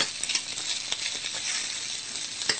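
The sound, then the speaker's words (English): Meat browns in a hot pan with a steady, bright sizzling hiss that carries throughout, dotted with occasional faint clicks, and no talk. “And we'll just let this brown up a little bit more.”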